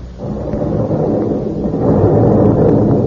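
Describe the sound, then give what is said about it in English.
A heavy, continuous rumbling roar of bombardment explosions in a radio drama about a besieged British compound, loud and dense throughout, swelling slightly stronger toward the end. “Well, they've ambushed us, Jack. I suppose they'll continue to bombard us until we either give up or...”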